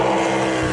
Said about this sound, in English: And that's the sound of Bubba Wallace, Ryan Preece, and Alex Bowman doing a Goodyear tire test at Bristol with 750 horsepower engines.